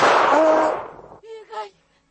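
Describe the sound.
A single gunshot rings out in a radio drama as a loud, sharp blast with a long, fading tail, followed by a brief voice.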